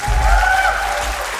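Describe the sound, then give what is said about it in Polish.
Brief applause for a folk band: a short, steady wash of clapping that holds at an even level for about a second and a half, with a faint sustained tone running through it. “To jest ten moment, w którym raz jeszcze oklaski dla kapeli ze wsi Warszawa.”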